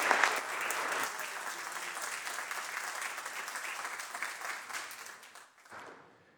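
Applause in the California State Senate chamber welcoming a visiting Consul General: many hands clapping in a sustained, even patter that holds for several seconds, then thins and fades out toward the end.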